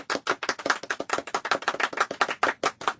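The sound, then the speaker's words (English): Weak applause from another room: a thin scattering of hands clapping in quick, irregular bursts, with no voices. “that was weak applause from the other room.”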